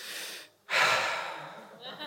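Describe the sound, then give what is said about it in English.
A long exhaled breath, with a voice imitating Jesus breathing on his disciples: one airy, breathy gust that starts abruptly after a short pause and slowly fades away, with a faint trailing breath at the end. “So he just breathed. Just breathe.”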